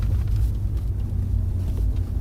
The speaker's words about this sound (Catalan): El cotxe perd velocitat.